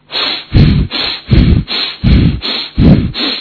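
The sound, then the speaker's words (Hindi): Long, deep breaths from a breathing exercise done with the chin lowered in the Jalandhara Bandha posture: loud, airy breaths alternate with softer ones in a slow, regular rhythm, four strong breaths in all, with no talking. “लंबा और गहरा सांस लगभग 20 से 25 बार कम से कम। शुरू कीजिए।”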